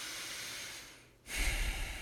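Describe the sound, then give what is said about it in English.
A deep breath is drawn in through the nose: a long, airy nasal hiss that thins and dips, then swells into a louder, fuller rush of air. No talking is heard. “Just take a deep breath through your nose.”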